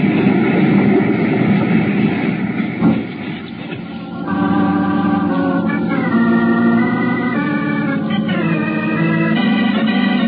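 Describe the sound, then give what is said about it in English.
Loud, steady aircraft engine roar as a plane loses control and dives toward a jungle for a crash landing, with a droning whine and tonal lines over it and a brief dip early on. “Pull up or we'll crash. I'm doing my best. We're headed straight for the jungle. Hang on, Sally. Watch it. Brace yourselves. We're going to hit.”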